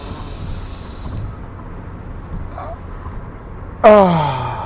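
A deep exhale through the mouth during a guided breathing exercise: a steady, breathy rush that stops after about a second. Quieter low background noise follows, and a loud voiced exclamation with a falling pitch comes in near the end.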